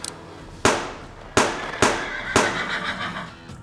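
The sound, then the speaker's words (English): Four sharp gunshots are fired at a deputy, coming in quick succession. Each loud crack leaves a ringing, decaying tail. “Fall opened fire on Ben Williams. One bullet shot through the deputy's hat Another struck his shoulder.”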